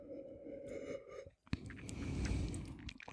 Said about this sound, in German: Ich muss mal einen Schluck nehmen.